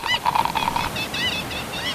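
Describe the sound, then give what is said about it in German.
Seagulls calling at a beach, many harsh, nasal cries in quick succession over a steady hiss of waves washing in. “Da sind die Möwen, die Wellen, die Cola.”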